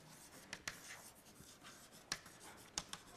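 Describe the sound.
Faint writing during a lecture: a soft, continuous scratching broken by a few sharp taps. Two taps fall close together early on, then isolated ones follow, with no talk.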